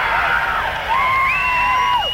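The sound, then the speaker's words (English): A concert audience at a 1974 Frank Zappa show in San Carlos, California, making noise: long wavering whoops and sliding shouts rise over a steady bed of crowd cheering. “It sounds like 30% of the audience will make some noise, but they won't really skip the audience participation.”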